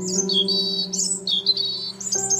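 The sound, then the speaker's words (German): Small birds chirping in a nest tucked into the upper corner of a patio roof, giving a quick run of high, thin chirps over a steady low hum. “um dessen Ursache zu erkunden und blickst direkt in ein kleines Vogelnest.”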